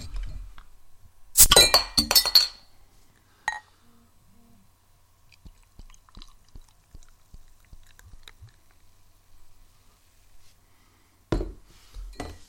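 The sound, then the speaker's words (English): A bottle of traditional-style 5.3% pilsner from Hoyne Brewing is opened and poured, with a loud burst of hissing and clinking glass early on, scattered faint clicks and taps, and another short burst of clinking near the end. “shall we start with one of the more traditional, sticking to the style type beers? Let's crack one open.”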